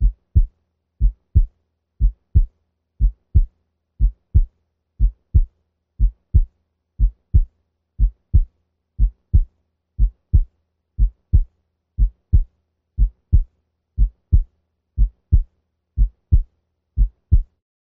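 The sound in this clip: A stethoscope picks up heart sounds at the aortic area at 60 beats per minute: low, muffled lub-dub pairs with a single first sound and a louder second sound. The pairs repeat steadily about once a second, with nothing else heard.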